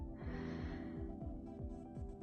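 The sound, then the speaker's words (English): A deep inhale from someone in a guided meditation, a soft, airy breath drawn in steadily over a constant low tonal background. “Inhale and exhale. One more time. Inhale”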